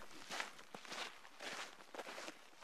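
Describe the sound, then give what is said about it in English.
Crunchy footsteps on a desert hiking trail among saguaro cacti, falling in a steady, even walking rhythm of soft scuffing treads, with no voices. “We're walking”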